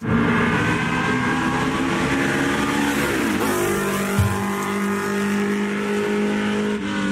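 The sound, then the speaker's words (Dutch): A 1964 Porsche 904 GTS race car engine roars loud and steady with a rich buzzing note. Midway the pitch drops sharply, then the engine holds a lower steady drone to the end. “Laten we ook nog even met een bijzondere Porsche aan de haal gaan met dit geluid.”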